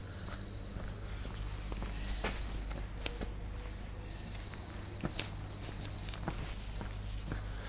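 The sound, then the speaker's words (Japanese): Footsteps walking through a residential back alley on the way home from work: quiet, irregular steps over a low steady hum. “今ここは住宅地の路地裏ですが、仕事の帰り道です。”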